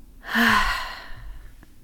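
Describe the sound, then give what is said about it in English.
A deep, audible exhale after a slow inhale through the nose, one long breathy rush of air that swells quickly and then fades away gradually, heard on its own. “Take a deep inhale through the nose, into the belly, and then an audible exhale out.”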